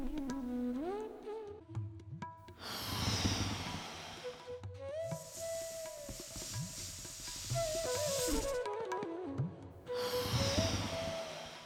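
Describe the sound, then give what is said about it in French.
Three slow, deep breaths in a guided relaxation exercise, each a long airy hiss lasting a couple of seconds, separated by pauses, with soft, gentle music playing underneath throughout. “Et comme aux autres étages, respirons trois fois.”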